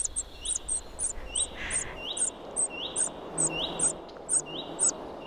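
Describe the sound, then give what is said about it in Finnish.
Rapid, high-pitched begging calls of a common cuckoo chick in a common redstart nest: a steady, regular run of many sharp chirps with fainter rising whistles repeating beneath them. “Juha Haikolan äänitteen siitä, miten vaativalta se oikein kuulostaakaan, kun käenpoikainen kerjää leppälinnun pesässä. Ja se kuulostaa tältä.”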